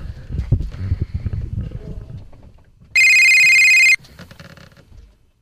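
An electronic telephone ring heard while an outgoing call is placed: a single steady, bright tone lasting about a second, preceded by low rumbling handling noise and followed by faint fading rustle.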